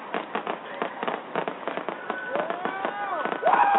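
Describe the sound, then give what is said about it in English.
Illegal fireworks exploding outside: a rapid run of many sharp crackling bangs, with whistling tones that sweep up and down near the end and a louder burst at the close. “That is the sound of illegal fireworks.”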